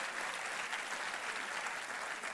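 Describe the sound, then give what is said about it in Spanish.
Audience applause at a Spanish-language talk: a dense, uniform patter of many hands clapping at a steady, moderate level throughout the short stretch. “Sí, ese es el aplauso.”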